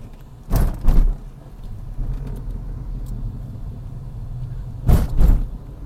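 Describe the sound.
Car driving over a speed bump while touring unfamiliar streets: a low engine hum runs throughout, broken by two heavy paired thuds, one near the start and another near the end.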